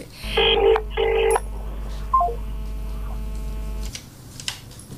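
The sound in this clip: Telephone call connecting on a phone-in line: two short bursts of dialing tone and a brief beep, then a steady electrical hum that holds for a couple of seconds before cutting off.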